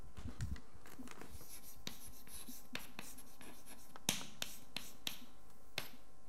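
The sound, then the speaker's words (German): Handwriting a formula by hand during a lecture: many scratchy strokes and sharp taps, the strongest clustered in the second half, with no voices. “und jetzt schreibe ich die Formel hin”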